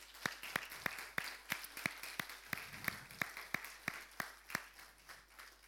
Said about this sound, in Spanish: Le damos un aplauso a todos esos trabajadores.